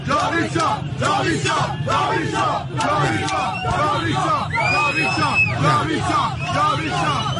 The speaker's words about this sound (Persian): نه عزیزم، اینو صدا گذاری کردن، قربونت برم. ببینید این صدای آدماییه که دارن دست میزنن راه میرن.